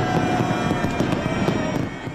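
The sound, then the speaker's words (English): Fireworks at a New Year celebration in Las Vegas: loud, dense crackling and popping bursts that run together into a steady, continuous roar with no clear break. “Revelers were enjoying the fireworks there in Las Vegas.”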